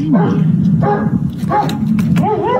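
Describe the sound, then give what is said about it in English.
A dog barks and whimpers, one of several dogs kept in an outdoor pen, with high wavering whines and yelps breaking in among sharper barks over a steady low hum. “Is it the dog's freaking out? The dog's freaking out because here comes the big”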